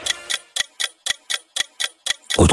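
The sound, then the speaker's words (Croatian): Clock ticking used as a radio time signal: crisp, evenly spaced ticks at about four per second, ending in a louder burst of noise. “Otkucavanje. Dopodne. Deset sati, 38 minuta za vas koji nemate satove.”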